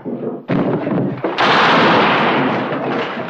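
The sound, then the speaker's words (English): Gunshots in an Old West frontier shootout: a few sharp, loud blasts, the last one swelling into a long, rumbling roar that slowly fades. “It's pretty fair shooting for an old married man.”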